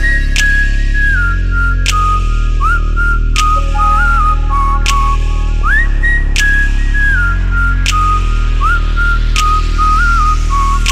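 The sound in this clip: A person whistles a tune in clear, wavering high notes that glide between pitches, laid over a steady music beat with deep bass and regular percussion hits for the whole stretch.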